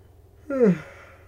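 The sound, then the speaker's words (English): A single short yawn, a breathy voiced sound whose pitch slides downward, rising briefly out of a quiet low hum and fading after about a third of a second. “I'm yawning. Oh my god.”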